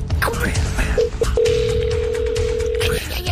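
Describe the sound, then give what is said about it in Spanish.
Outgoing phone call ringing: a couple of short tone blips lead into one long, steady, mid-pitched ringing tone lasting about two seconds, with people talking over it. “Ahí está. Está llamando a don Chiliberto.”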